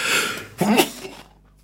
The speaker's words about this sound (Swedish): Oj, där kom en nysa